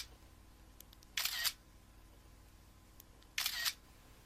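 Camera shutter clicks while selfie pictures are taken: two short, crisp mechanical snaps a couple of seconds apart over a faint, quiet background.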